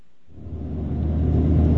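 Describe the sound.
Truck engine rumble heard from inside the cab during a drive through sugarcane farmland: a deep, steady low drone that starts after a brief quiet moment and grows gradually louder, with no talk.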